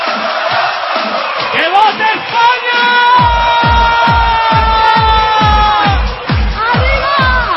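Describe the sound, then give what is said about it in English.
A jubilant crowd in Madrid cheers and bellows to welcome Spain's national football team home after it retained the European Championship. Loud shouting and horn-like calls ride over a steady drumbeat in the second half. “thousands of jubilant Spaniards packed into the capital to welcome home the national football team after they'd retained the European Championships.”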